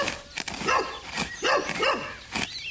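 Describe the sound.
A dog barks at a postman in several short, sharp barks with yelping edges, spaced irregularly and fairly loud.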